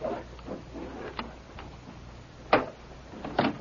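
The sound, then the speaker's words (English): A safe being opened gives off faint, sharp metallic clicks and ticks. Small taps come first, then two louder clicks near the end. “Get to the safe. All right. All right, go on. Open it. I am.”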